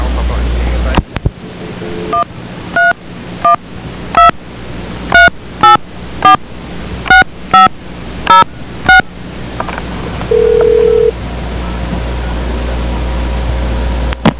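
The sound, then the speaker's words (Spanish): Telephone dialing tones as a call is connected: a quick series of many touch-tone beeps, then one longer steady tone, all over a constant hiss. “espérate que Yoyi va a poner a, te va a poner en línea con José Antonio”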